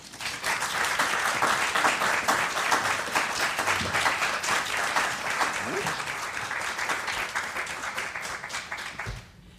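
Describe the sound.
Audience applause welcoming a guest before a book reading in Philadelphia: dense, steady clapping from a crowd that holds for about nine seconds, then stops abruptly with a soft thump.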